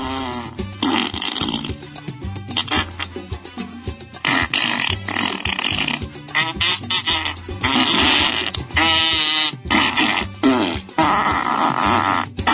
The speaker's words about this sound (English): And it has the most horrific fart sound effects. Literally, half of the video for the Kickstarter sounds like this.